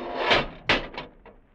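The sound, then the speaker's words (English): Doors closing on a time machine produce a few hissing, whooshing bursts, the first two loud and full, the later ones smaller and fading. “Doors, Dudley, they're closed.”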